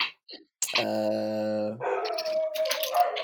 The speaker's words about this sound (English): I assume y'all can hear the dogs barking.